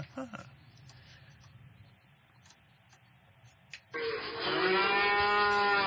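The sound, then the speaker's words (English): Cattle moo in a barnyard at Christmastime. A loud, sustained, droning moo suddenly rises out of a quiet, low background and holds steady to the end. “What do you say we take a trip out into the barnyard and see how they're coping up for Christmas out there?”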